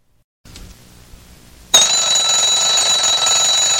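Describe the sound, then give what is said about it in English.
An alarm clock bursts into loud, continuous high-pitched ringing after a short stretch of faint low rustling. The bell then sounds steadily without a break. “An alarm clock will cease to waken the person who ignores it repeatedly.”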